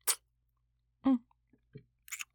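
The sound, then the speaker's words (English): Wet mouth sounds of a finger being sucked: a few short smacking, clicking bursts, separated by quiet gaps. “So what if I'm still sucking my finger?”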